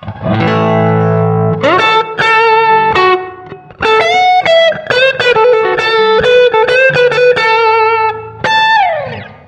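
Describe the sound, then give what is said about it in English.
Electric guitar, bright with effects and light distortion, plays a major pentatonic scale for a happy blues sound: many quick, loud picked notes in flowing runs, ending with a falling slide. “Another scale that I like to use when I'm playing blues is the major pentatonic scale. It gives me a sort of a happy blues sound a la B.B. King.”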